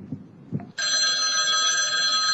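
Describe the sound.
A telephone bell rings during a random prize-quiz phone call: two soft, low thumps come first, then a bright, loud jangling ring starts abruptly and holds steady to the end.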